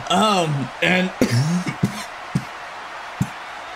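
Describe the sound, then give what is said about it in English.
Coughing and sputtering after a sip of Natty juice went down the wrong way: a few strained, voiced hacks up front, then several short, quieter coughs spaced apart. “Hold on, some of my natty juice got stuck in my throat.”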